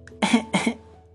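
Two short, throaty coughs in quick succession, fairly loud against a quiet background, followed by stillness.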